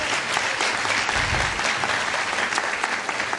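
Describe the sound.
Loud audience applause at a speech after a playwright is pointed out in the room, a dense, even wash of many hands clapping that holds steady for the whole clip.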